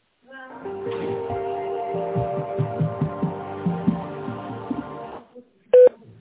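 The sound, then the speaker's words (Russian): Telephone keypad tones entering an extension number: a run of short touch-tone beeps over a steady tonal background, then after a pause a single louder beep. “Пожалуйста, дождитесь ответа оператора или наберите добавочный номер сотрудника. По окончанию набора нажмите решетку.”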